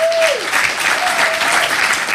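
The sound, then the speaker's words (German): Audience applause welcoming the first guest of an evening show: a steady, dense patter of clapping hands that holds at an even level throughout. “Ich bitte Sie um einen ersten Applaus für meinen ersten Gast heute Abend”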